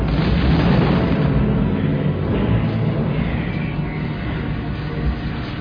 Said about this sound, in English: Those bombs on target. The whole group is bombing with us.